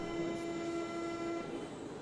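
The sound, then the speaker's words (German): A train passes with a rumbling rattle under a steady, clear horn tone that holds for over a second, then drops away while the rumble continues. “Oh, die Bahn.”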